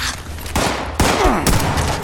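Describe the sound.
Gunfire in a video game: a few loud, sharp shots in close succession, each with a brief ringing tail, over a dense, noisy background.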